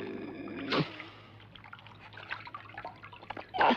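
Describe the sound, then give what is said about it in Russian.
Water drips and trickles as a monkey wrings out a towel over a bathtub filled with water. Two splashy bursts, one near the start and one at the end, frame a faint patter of scattered drips. “Обезьяна стирает полотенце в наполненной водой ванне. Выжимает.”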